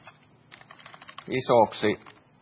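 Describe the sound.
Typing on a computer keyboard: a quick, fairly faint run of light clicking keystrokes, followed by a short burst of a person speaking.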